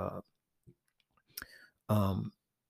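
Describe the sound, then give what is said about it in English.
A pen dropped, one brief sharp clatter standing out between short bits of speech. “oops, dropped my pen”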